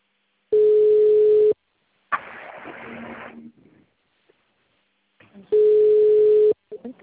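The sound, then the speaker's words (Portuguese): A phone call's ringing tone sounds on a group call: two steady, even one-second tone bursts, several seconds apart, with quieter rustling noise in the gap between them. “Começou a chamar agora, depois você entrou. Tá chamando pra mim aqui.”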